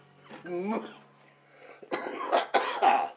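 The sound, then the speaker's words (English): A smoker's harsh coughing: one rough cough, a pause, then a tight cluster of a few loud, chesty coughs in quick succession. “Smoker's Cough, not COVID.”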